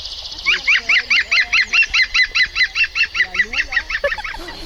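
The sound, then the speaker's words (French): A green woodpecker's laughing call plays through a portable speaker in a park: a loud, steady run of many rapid, evenly spaced repeated notes. “Ça, c'est le chant du pivert. Donc si un jour, vous entendez un oiseau qui rigole, c'est le pivert.”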